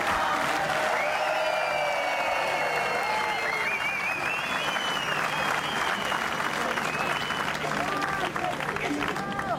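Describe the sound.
An audience gives a round of applause for a boy. Dense, steady clapping continues throughout, with a man's voice talking over it.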